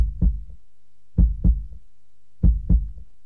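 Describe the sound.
A heartbeat thumps in a steady lub-dub pattern: three low, dull double beats, each followed by a faint softer tap, with quiet gaps between them and nothing else heard.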